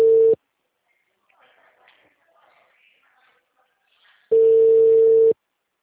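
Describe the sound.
Telephone ringback tone of an outgoing call: a steady, mid-pitched electronic tone cut short at the start, then a long gap with faint background rustling, then a second full tone lasting about a second.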